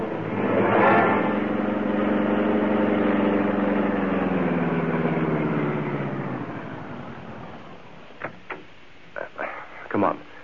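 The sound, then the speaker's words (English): Car engine drones steadily for several seconds, then fades, followed by a few short sharp knocks. “Step on it. Drive to the Big Cuss Apartments.”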